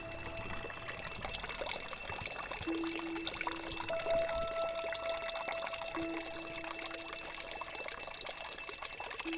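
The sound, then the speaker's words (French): Water pours and trickles in a steady, unbroken flow, a constant wet rush with no distinct splashes, running alone at a moderate level throughout. “Les trucs d'eau qui coulent de partout. Oh là là, l'eau qui tombe.”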